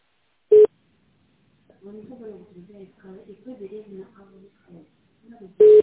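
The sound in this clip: Telephone line tones while a call is being put through: two short, loud beeps frame a stretch of faint, tinny tonal sound in between.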